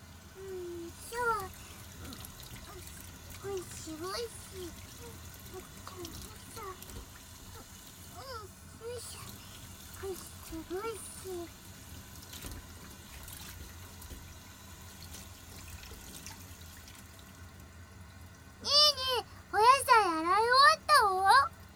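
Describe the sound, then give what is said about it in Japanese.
Running water trickles steadily as vegetables are washed, a faint continuous wash under talk that includes a child's voice, with brighter, louder voices near the end. “くんもお野菜洗うの頑張る。”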